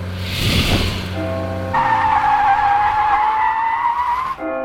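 A car accelerating hard, loud and sustained, with a high steady whine of squealing tires over a rough engine roar that cuts off abruptly near the end.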